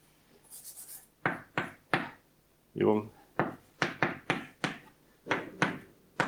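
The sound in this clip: Someone writes on a board during a mathematics lecture, making many short, scratchy strokes in quick bursts with a brief spoken word partway through.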